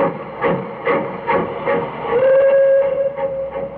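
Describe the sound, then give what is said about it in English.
A steam train pulls away with steady rhythmic chuffing, and a sustained whistle tone rises over the beats partway through and holds to the end. “I stood there watching the red light of his train disappear.”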